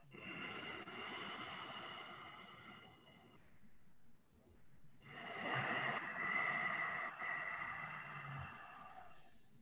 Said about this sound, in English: Inhale. Exhale. Continue.